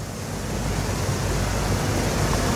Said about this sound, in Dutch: hier is het gat in de dijk. Je hoort het water uit het bassin stromen.